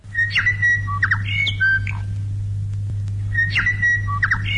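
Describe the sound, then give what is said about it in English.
A morning bird call played on the radio on Waitangi Day in 1974: sharp whistled notes and harsh squawks in a quick phrase that repeats after a pause, over a steady low hum. “That's the sound of the first ever morning bird call being played on the national program, as it was called back then, on Waitangi Day in 1974.”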